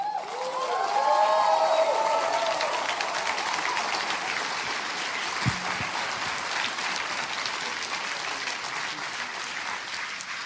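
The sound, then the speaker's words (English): A church audience gives a guest speaker a loud welcome, with sustained applause and cheering that includes a few whistles early on, and the clapping stays dense to the end. “I want us just to give us an enormous wild, go crazy, Bridgeway welcome for Jamie Galloway.”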